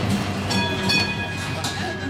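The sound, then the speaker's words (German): Rumble of a Vienna tram running through the city toward its southeast, a steady rolling drone with thin whining tones and a few soft knocks, moderately loud from start to end. “Mit der BIM, wie die Wienerinnen und Wiener ihre Straßenbahn liebevoll nennen, geht es in den Südosten der Stadt zum Zentralfriedhof.”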